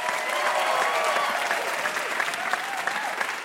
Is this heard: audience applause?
yes